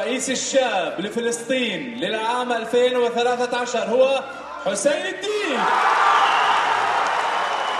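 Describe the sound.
A live studio audience cheers at the grand finale of a TV reality series, with loud whoops and shouted voices rising and falling, then a dense, steady roar of cheering and applause toward the end.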